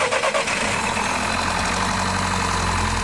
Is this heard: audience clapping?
no

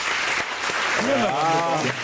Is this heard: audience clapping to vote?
yes

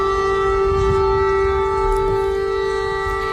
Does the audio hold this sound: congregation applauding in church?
no

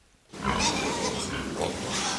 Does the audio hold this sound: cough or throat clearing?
no

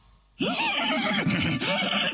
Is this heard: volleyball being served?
no

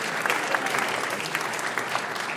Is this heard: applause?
yes

